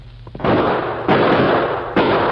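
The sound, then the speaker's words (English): Gunshots fired from a clump of trees: three sharp, loud blasts, each followed by a sustained roaring noise tail, spaced less than a second apart. “Shots come from clump of trees to left.”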